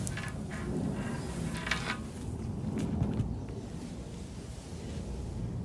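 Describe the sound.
Wind blowing outdoors, a soft continuous rushing that swells and eases gently in loudness, fairly quiet with no voices.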